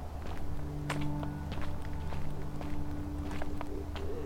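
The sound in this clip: Footsteps of a walker carrying a large duffel bag and an old metal detector tread steadily into a state park. Soft, regular footfalls continue over a constant droning tone.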